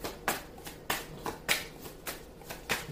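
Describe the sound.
Tarot cards being shuffled and drawn give faint, crisp riffling bursts in a steady repeating rhythm, stronger strokes alternating with softer ones.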